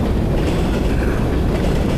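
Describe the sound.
A train runs along the rails with a dense, steady rumble and rattle that holds unbroken through the whole stretch, with no voices.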